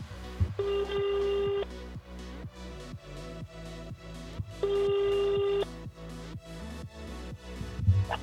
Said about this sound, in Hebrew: בוא נתקשר בשידור.